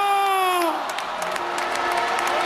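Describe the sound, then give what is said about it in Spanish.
Crowd ovation for a player at a World Cup football celebration: a dense roar of cheering and clapping, with a raised voice heard briefly at the start. “También gran ovación a Baena.”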